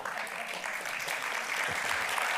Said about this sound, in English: That was applause.